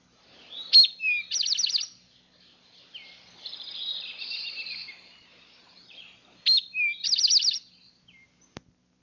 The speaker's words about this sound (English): Rufous-sided towhee.